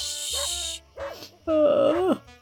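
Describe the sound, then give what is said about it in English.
A dog barks a few times, with short tonal yelps and a longer, drawn-out cry near the end, loud and alone. “so stop barking”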